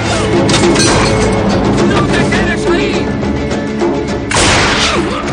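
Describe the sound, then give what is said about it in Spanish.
Gunfire rings out in a shootout from the 2007 western film 3:10 to Yuma. It is loud and dense, with booming, crashing blasts blended into a sustained roar and a fresh sharp burst near the end. “Charlie los localiza dirigiéndose a una caseta y abre fuego.”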